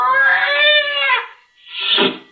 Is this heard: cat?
yes